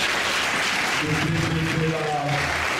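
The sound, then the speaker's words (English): Applause for a Dunbar High School coach: steady, dense clapping that holds at an even level through the whole stretch, with some faint tonal sound running underneath. “Let's give him a hand.”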